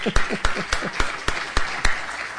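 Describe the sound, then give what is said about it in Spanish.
An audience applauds after a presentation, with seven sharp, evenly spaced claps standing out in a steady rhythm above a softer wash of continuous clapping. “Creo que podemos aplaudir.”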